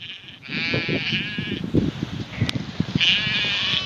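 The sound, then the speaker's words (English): Herdwick lambs bleat repeatedly in Cumbria, their high wavering cries rising over a steady rush of wind, with a few sharp calls overlapping and one brief click partway through. “And here's a little sound. This is of Herdwick lambs, the breed he raises.”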